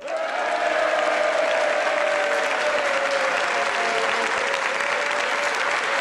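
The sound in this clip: A large audience applauds, dense and steady clapping that holds at an even level from start to finish with no voices over it.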